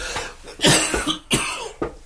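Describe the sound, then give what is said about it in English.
A person coughs several times in quick succession, harsh and loud, with no talking. “And I'm going to cough.”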